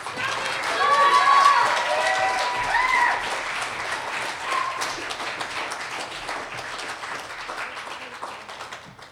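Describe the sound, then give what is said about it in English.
Audience applause welcoming a poet, a PhD student in poetry, to the stage at a reading: steady, dense clapping that starts strong and gradually fades. “Please help me welcome Nicole to the stage.”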